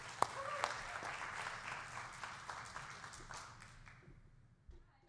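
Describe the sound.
An audience applauds to welcome a speaker, with dense, steady clapping sustained for several seconds before thinning out and fading near the end.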